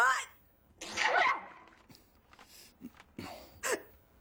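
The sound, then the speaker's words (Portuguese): A woman with a bad cold and fever sneezes, giving a few short, sharp, breathy bursts, one fuller and louder than the rest, separated by brief quiet gaps. “Você ouviu? Ouvi. Pois é, olha, eu tô espirrando”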